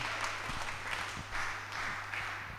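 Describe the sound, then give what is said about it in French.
A church audience applauding, a dense, continuous spatter of clapping hands over a constant low electrical hum. “Acclamons pour le frère.”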